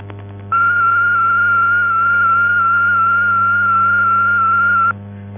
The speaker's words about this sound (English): Now the Datel 600 service transmitting at 1,200 bits per second. A binary one sounds like this.